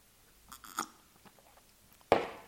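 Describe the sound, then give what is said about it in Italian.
Slurping sips of pear tea: a few faint small mouth sounds early on, then one sharp, louder slurp that trails off near the end. “bevo il tè che faccio prima, ecco.”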